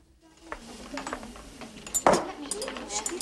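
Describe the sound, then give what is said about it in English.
A soufflé dish set down on a kitchen worktop gives one sharp clink, with a few lighter clatters of crockery before and after it. “She eyes it gloomily, then puts it on a worktop beside Marjorie's towering effort.”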